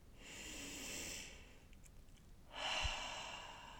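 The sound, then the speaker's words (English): Deep, slow breathing: two long, airy breaths, each over a second, separated by a short quiet gap, soft and unhurried with no talking. “So let's take a breath. One more like that.”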